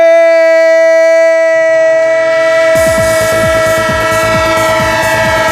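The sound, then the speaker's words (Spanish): A loud train sound effect used as a radio football jingle: a sustained, chord-like train horn blares first, then rhythmic clacking of rail wheels joins in under the horn and repeats steadily to the end. “¡El tren de Radio Estadio! El tren de Onda Cero, el tren, como no, del fútbol.”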